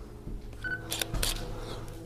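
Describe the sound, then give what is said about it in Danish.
A camera shutter takes photos of posters with two quick, crisp clicks close together. The clicks are faint over a low background hum. “De plakater skal vi lige have billeder af. Det er vi nødt til.”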